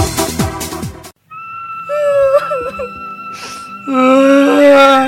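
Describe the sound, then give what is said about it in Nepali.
A child crying, with loud, wavering high-pitched whimpers and wails that break off and start again, ending in a longer sustained sob. “किन रुन्छस् बाबु? नरौ नरौ बाबु”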